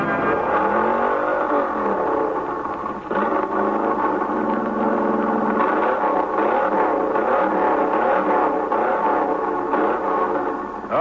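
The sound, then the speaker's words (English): Engine revving at full throttle, a loud sustained roar whose pitch swells and dips over several seconds, with no voices. “Throttle her full.”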